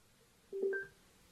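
A single short telephone keypad tone sounds as a call is answered on the phone, a clear dual-pitched beep lasting about a third of a second, alone over faint hiss.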